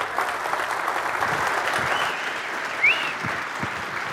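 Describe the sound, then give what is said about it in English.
Audience applause welcoming a pastor to the stage at a Calvary Chapel church session: dense, even clapping that carries on steadily through the whole stretch without pause. “And would you guys give Pastor Mike MacIntosh a warm Calvary Chapel welcome?”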